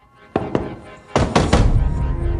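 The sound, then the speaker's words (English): Heavy double doors are banged on at the top of a stairwell: two loud thuds, a short pause, then a quicker run of deep, forceful booming bangs. “At the top, she bangs on a pair of heavy doors.”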